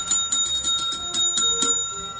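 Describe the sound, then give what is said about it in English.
Bells ringing in a rapid run of bright, high-pitched metallic strikes, many overlapping rings with a steady tonal shimmer, alone without voices. “That's a sad disparity of bells.”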